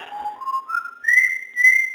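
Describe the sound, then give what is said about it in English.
Whistling from a pet bird: a clear, pure-toned series of about five notes stepping upward in pitch, the highest ones held longer and louder at the end, with no talking. “that's Cosmo whistling.”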